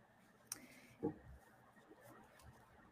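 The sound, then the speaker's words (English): A pen writes notes down by hand, heard as faint scratching on paper with a few soft ticks and taps, quiet and without talk. “Writing this down.”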